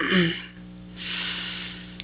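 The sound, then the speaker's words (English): A person inhales deeply during a chakra-cleansing and reiki healing session, a soft breathy rush of air lasting about a second over a low steady hum. “Again, just inhale.”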